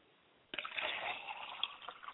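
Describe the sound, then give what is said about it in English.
Liquid poured out as a libation to an ancestor's spirit: after a brief hush, a steady splashing, trickling stream runs for about a second and a half, with small gurgles in the flow. “I like to pour libation to my mother's spirit, Yamanja”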